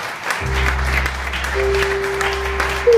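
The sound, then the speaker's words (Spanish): Church audience applauding at the close of a prayer during a Sunday service, a steady, dense wash of clapping over sustained low keyboard-like tones. “Le damos un aplauso.”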